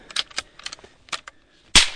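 A rifle shot at an Australian brush-tailed possum in a tree on a small farm cracks out loud and sharp near the end, after a few faint clicks and rustles.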